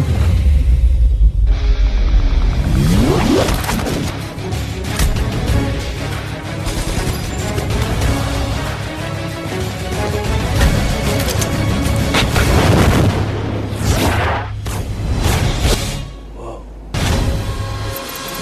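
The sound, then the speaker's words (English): Trailer soundtrack for The Matrix, the 1999 film by the Wachowskis: loud, dramatic booms and crashing effects over a sustained rumble, with a brief drop in level near the end and then a final hit. “that was the trailer for The Matrix, the 1999 film that was the second film written and directed by Lana and Lily Wachowski”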